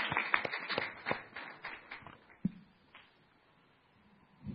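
Hands clap in a quick, regular rhythm as a church audience welcomes a pastor. The claps are faint and crisp, then thin out and fade to near silence partway through.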